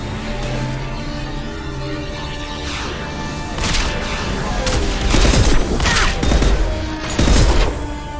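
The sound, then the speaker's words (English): Gunfire and explosive blasts as robot drones fire rockets in a video game: a steady din of shooting that builds into several loud, crashing bursts in the second half. “Alright, so robot drones are firing rockets at us?”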